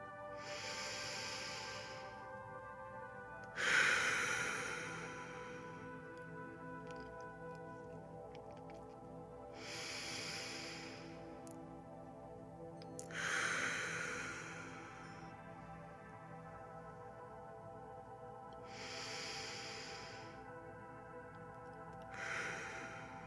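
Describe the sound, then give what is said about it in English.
Three slow, deep breaths, each a soft inhale followed by a longer exhale, evenly spaced and faint over a low, steady sustained tone. “So we take 3 deep breaths together.”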